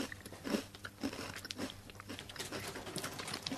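Crunchy chewing of a salted rice cracker seasoned with baked salt, many crisp bites and grinding crunches in quick irregular succession. The sound is faint and steady throughout, with no talk.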